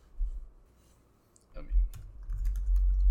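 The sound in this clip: Typing on a computer keyboard while playing a video game: faint, quick key clicks over low thumping noise. A short quiet gap comes first, then a denser run of clicks.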